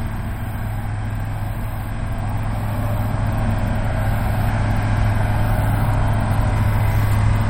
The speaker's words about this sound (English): there goes a truck pulling away, filled up with salt.